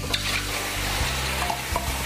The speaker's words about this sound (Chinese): 当我们现在冒烟了以后，我们现在下我们的酒，米酒跟绍兴。